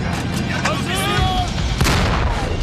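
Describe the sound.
Gunfire aimed at a target during a tank assault: a few sharp, booming shots cut through a dense, noisy battle din, with a voice speaking between them.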